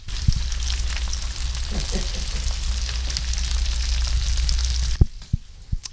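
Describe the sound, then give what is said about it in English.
Bacon sizzling as it cooks, a loud, steady crackling hiss dotted with small pops that cuts off near the end and gives way to a few dull knocks. “I'm going to take the microphone over here, get a little closer look at this bacon here. Let's see what we got going here.”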